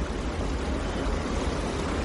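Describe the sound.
Water cascading from rooftop infinity pools makes a steady, dense rushing roar with a hissing top. It stays loud and unbroken throughout, with no voices over it.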